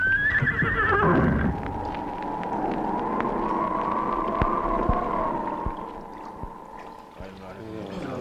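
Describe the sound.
A horse, urged to cut through sea waves, gives a loud, shrill whinny that falls in pitch over the first second and a half, then gives way to a steady sustained background.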